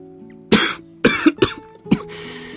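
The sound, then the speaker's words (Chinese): Coughing from a man clearing his throat: a few short, harsh coughs in quick succession, loud against silence. “魏谦咳嗽两声”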